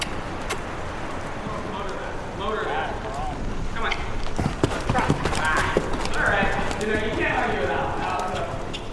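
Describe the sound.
Horse hooves clip-clopping during a dressage lesson at a farm in Littleton, Massachusetts, a steady, even rhythm of hoofbeats under continuous background noise, with voices talking over them.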